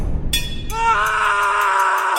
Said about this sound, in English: And the scream means only one thing, of course.